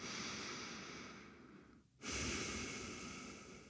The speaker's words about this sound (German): gibt dir dein Unterbewusstsein ein Signal, in dem es plötzlich einen tieferen Atemzug macht, so wie jetzt.